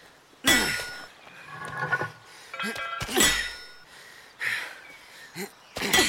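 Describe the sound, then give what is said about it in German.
Rhythmic hammer blows land at a slow, steady pace, a few heavy thudding strikes with metallic clangs and ringing tones between them. “Eins, zwei, drei. Immer gleichmäßig. Pass deinen Hammerschlag meinem an.”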